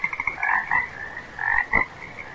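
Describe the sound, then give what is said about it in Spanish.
Frogs croaking by a river form a dense chorus of rapid, rattling croaks in overlapping bursts. No voices are heard. “Y solo recibía el croar de las ranas del río como respuesta.”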